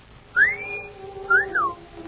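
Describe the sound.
A man's wolf whistle aimed at a woman: a shrill rising note held briefly, then a quick second phrase that sweeps up and falls away, clear and alone against faint background hiss.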